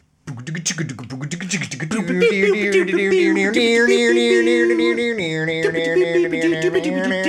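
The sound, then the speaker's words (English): Melodic music from the video game Calculords 2: layered, sustained harmonic tones that enter softly, swell to a full, steady level after about two seconds, and shift to a new lower chord partway through. “We are honored to have supplied music and sound for Calculords 2, and it sounds like this.”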